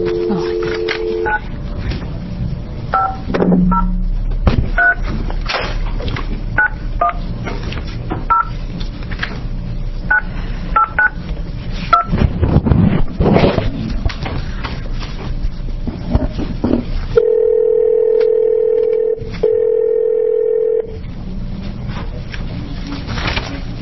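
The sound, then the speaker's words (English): Touch-tone telephone dialing: many short beeps in quick succession as a number is keyed, followed by a steady telephone tone held for several seconds. “You want to dial it for me? That'd be great.”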